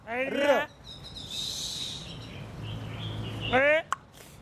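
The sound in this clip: Early-morning birdsong outside a large old house: a short cluster of thin, high chirps between bursts of a voice speaking.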